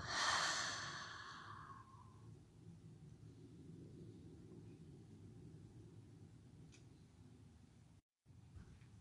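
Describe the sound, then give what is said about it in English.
A single deep breath is released through an open mouth as a loud, breathy exhale that trails off over about two seconds into near silence. “Final deep inhale into the body. Open the mouth, exhale, let go.”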